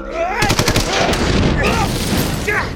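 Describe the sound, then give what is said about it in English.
Gunfire in an audio drama shootout indoors: a rapid burst of sharp shots, followed by a dense, noisy rumble, with a voice coming in briefly near the end. “Get down, I got a clear shot!”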